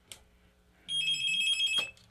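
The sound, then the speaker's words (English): A telephone rings once in a short burst of bright, warbling electronic tones, loud against a quiet background, then stops abruptly. No voices are heard. “I think we got phone calls coming in left and right already this morning because the phone's ringing again”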